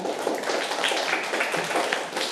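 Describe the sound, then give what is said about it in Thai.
Classroom students clapping for a classmate, a dense, even patter of many hands that stays at a steady level throughout, with no voices. “ปรบมือให้กับเพื่อนค่ะ”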